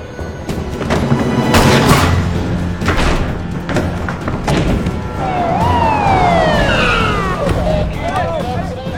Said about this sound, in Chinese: 此时外面警车声大作，隐约觉得不对劲。